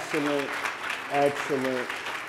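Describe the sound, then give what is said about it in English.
An audience applauds children's choir and praise dance performers at a church gathering. The clapping is a steady, dense patter that runs throughout, while a voice talks over it. “Can we give them another round of applause?”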